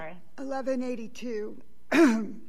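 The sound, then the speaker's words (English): A sharp throat-clearing cough from a person during a court hearing, one rough burst standing out after a stretch of voiced sound. “sorry, I'm having a little coughing fit”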